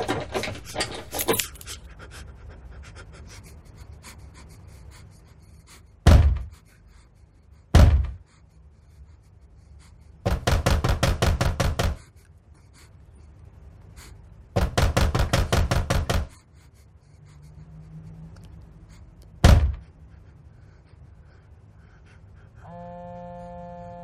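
Door handle being jerked and rattled on an entrance door in a film scene. A couple of heavy thumps come first, then two long bursts of rapid metallic rattling and one last thump, with quiet stretches between them.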